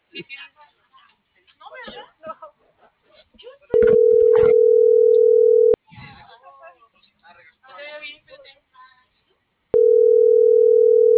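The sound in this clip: Ringback tones of an unanswered outgoing phone call: two long, steady, even tones separated by a pause of about four seconds. Voices are heard before and between them, and the second tone is cut off at the end.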